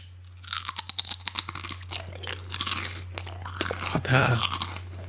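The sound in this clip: Someone chewing crunchy pizza-flavoured crisps: many sharp, crackling bites in quick succession, then softer, grinding mastication over a low steady hum.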